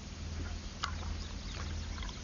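Tea poured into a cup, a soft, faint liquid trickle over a low background hum, with one brief brighter splash or clink partway through and no speech.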